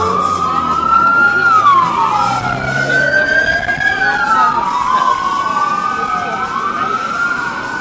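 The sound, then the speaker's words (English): An emergency services siren wails loudly in the street. Its pitch sweeps slowly up and down in long continuous glides, over a low rumble of traffic. “And here's an emergency services siren.”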